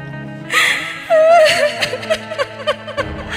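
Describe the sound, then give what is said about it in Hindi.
A woman crying, with a wavering, high-pitched wail that gives way to a few short, breathy sobbing bursts, loud and upfront. “हे रे काहे रोती है रे का भई”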